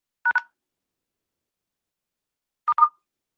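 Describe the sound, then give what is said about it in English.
Telephone keypad tones from pound and star key presses in a voicemail menu: four short, clear electronic beeps in two quick pairs, separated by a silent gap of about two seconds, with no voices. “I was hitting pound and star, and like the first time it skipped to leaving”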